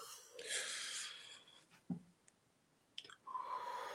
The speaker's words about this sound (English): sometimes you have to take a real deep breath, deep, like, pull that breath in from your diaphragm, like this